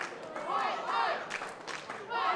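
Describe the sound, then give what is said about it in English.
A wrestling crowd chants in rhythmic, repeated waves of massed voices, each phrase rising and falling in the same pattern, moderately loud. “There goes the crowd with the White Mike chance.”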